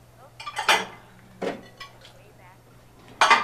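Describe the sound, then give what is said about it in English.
Dishes clatter and clink as a woman washes up in a TV drama scene, with a few sharp bursts of plates and cutlery knocking together separated by quieter pauses. “there's just this one scene I remember where she's doing dishes and she knows what's been going on and keeps it inside”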